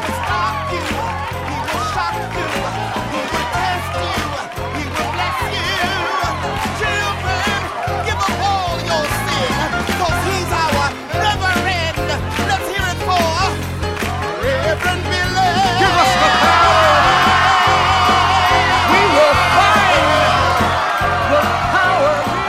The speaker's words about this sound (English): What you're hearing is a celebration of Reverend Billy and the Church of Stop Shopping.